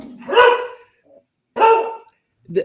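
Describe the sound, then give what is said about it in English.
A dog barking three times in sharp, loud bursts spaced about a second apart, the last bark shorter and weaker, with quiet gaps between them. “Dog barking. Right on time.”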